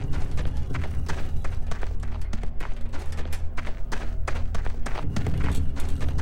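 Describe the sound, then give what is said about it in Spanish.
A boy running past on foot makes quick, regular thudding footsteps, many heavy steps in a steady rhythm that lasts the whole stretch. “Un muchacho pasó corriendo frente a mí en dirección al pueblo.”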